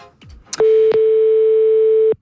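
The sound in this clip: Telephone tone of an outgoing random call: a few brief clicks, then one loud, steady, mid-pitched tone held unbroken for about one and a half seconds before it cuts off.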